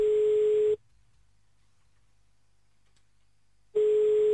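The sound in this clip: Ringback tone of an outgoing phone call: a steady, mid-pitched tone sounds briefly, then about three seconds of silence, then the same tone returns and is cut off at the end.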